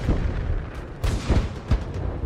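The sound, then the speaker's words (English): Artillery guns firing in 1918: heavy booms and dull thuds burst out of a dense, continuous rumble, with several loud concussive hits spaced unevenly. “So these are their artillery guns firing.”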